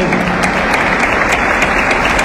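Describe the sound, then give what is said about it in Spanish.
Applause from an audience at an official school-year inauguration ceremony, a loud, steady wash of clapping that holds at an even level for the whole stretch with no breaks. “un aplauso, por favor.”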